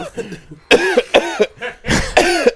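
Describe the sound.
Several harsh wet coughs from a hookah smoker come in a loud, uneven run, two close together near the end, after a few faint throaty sounds at the start.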